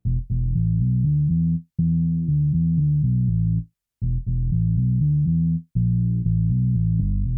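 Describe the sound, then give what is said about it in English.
A Nord synthesizer bass, processed through compressor and EQ plugins, plays deep sustained notes in a repeating phrase with short gaps between passages. It is heard alone at a steady, full level. “The Nord bass now sounds like this.”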